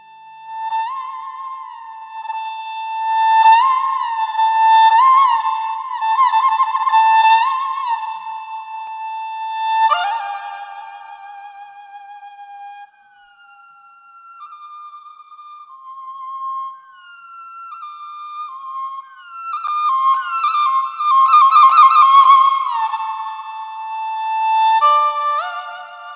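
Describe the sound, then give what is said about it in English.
A huqin plays the Chinese folk piece Hua Bangzi, drawn from Bangzi opera, with a traditional ensemble. The bright, high bowed melody slides between notes, thins to a soft passage midway, then swells back to full, ornamented lines. “What you're hearing now is the music piece titled Hua Bangzi”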